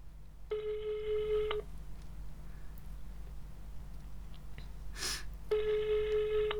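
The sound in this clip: Ringback tones of an unanswered phone call sound over the line: two long, steady, buzzing beeps separated by about four seconds of quiet hiss, with a brief noisy burst in the gap.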